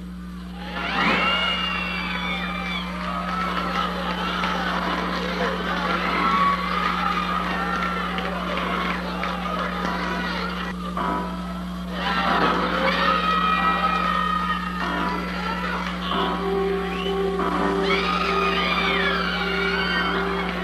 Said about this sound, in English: J. Wood, who recorded his movie theater crowd watching Halloween back in 1979, about a year after the movie came out, and uploaded the audio to YouTube back in 2011, and it's amazing to hear the audience reaction back then.